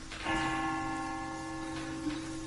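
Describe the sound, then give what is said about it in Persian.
A clock chimes the hour with one faint, sustained ringing tone that holds steady and slowly fades. “هنوز که ساعت زنگ نزده اینم زنگ”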